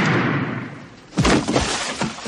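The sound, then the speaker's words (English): A movie sound effect of a body falling and hitting the ground, with one loud, heavy thud after a quieter lead-in, followed by a few smaller knocks and rattles. “But the best part about that clip is the way the body falls, and it's so loud. Listen.”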